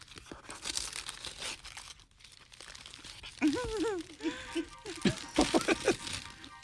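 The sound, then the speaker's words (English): Wrapping paper tears and crinkles as a gift is opened, in a run of ripping bursts that grow busier toward the end, while people talk over it. “Do I open a gift first or the card? It's entirely up to you. Put the card away. She's like, I'm going to go right for the gift.”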